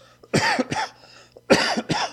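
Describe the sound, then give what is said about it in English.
A person's sudden, unprompted coughing fit: four sharp coughs in two quick pairs separated by a short pause, fairly loud and with no talk around them. “every so often I get this cough that just comes out of nowhere”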